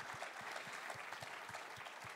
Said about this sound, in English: Can we give our hand round of applause?